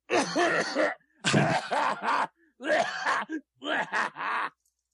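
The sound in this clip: A voice imitates someone gasping and groaning as if suffocating from gas, in four strained, voiced bursts separated by short pauses.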